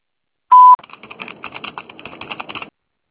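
A voicemail recording tone sounds as one short, loud, steady beep, followed by a quick run of light clicking taps that fade out.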